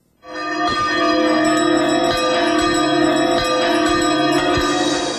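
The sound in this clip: Two bells ringing together, with many loud strikes layered over a sustained, shimmering hum that carries steadily through the whole clip, with no talk.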